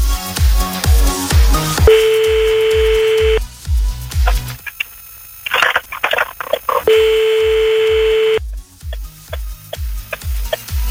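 A telephone call being dialled over a thumping music beat: two long, steady ringing tones, separated by a stretch of rapid dialling clicks and tones.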